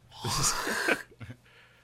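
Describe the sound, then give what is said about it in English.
Someone clears their throat, as if something is caught at the back of it during an illness: one harsh, raspy rasp followed by two brief, softer catches, heard alone and fairly faint. “I got something on the back of my throat right now. I'm going to cut the mic for a second.”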